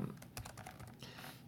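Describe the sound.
Typing on a computer keyboard while entering data into a spreadsheet, many quick, light key clicks in a fast, uneven patter at a moderate level with no talking.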